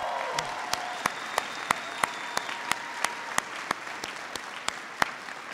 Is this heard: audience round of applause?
yes